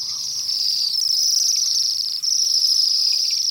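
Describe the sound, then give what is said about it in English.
A winter flock of Bohemian waxwings, down from northern boreal forests and feeding at apple trees, gives a continuous high, thin, trilling chorus of overlapping calls that stays steady throughout. “These are Bohemian waxwings. Occasional visitors during the winter, down from their nesting grounds in the boreal forests of the north.”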